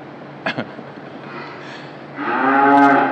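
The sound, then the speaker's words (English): A young calf, about three months old, gives one long, moderately loud moo after two brief knocks, over a low, steady background hum on a farm. “And the sounds and the smells, you wouldn't believe that that is a young calf, would you? You know, about a 3-month-old calf.”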